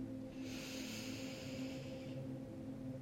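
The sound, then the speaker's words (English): A slow, deep inhale makes a soft, airy hiss that lasts about two seconds over a faint, low, steady hum. “And then taking one final deep breath in”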